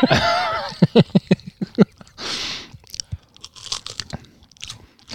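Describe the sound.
Crisp crunching as someone chews a thin, salty, fishy snack: a quick run of sharp, loud bites near the start, followed by quieter, scattered crunches and chewing.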